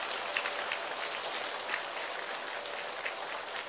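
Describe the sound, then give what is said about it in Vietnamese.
A Buddhist assembly of lay followers gives a long round of applause to welcome a venerable lecturer. The dense, crackling clapping stays faint and even throughout. “xin đạo tràng cho một tràng pháo tay thật dài, thật lớn”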